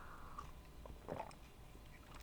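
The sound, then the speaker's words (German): A faint, quiet sip of coffee, with one short slurp standing out from soft mouth sounds. “Einen Schluck Kaffee.”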